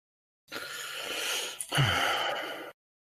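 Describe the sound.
A man groaning instead of answering, a breathy, wordless exhale lasting about two seconds with a short, low voiced strain partway through.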